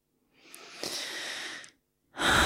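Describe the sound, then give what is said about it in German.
Slow breathing in and out through an open mouth during a relaxation exercise: one long, soft, airy breath, then a short pause and the start of another breath, with no talking. “Atme ein und aus und lass alle unnötige Anspannung gehen.”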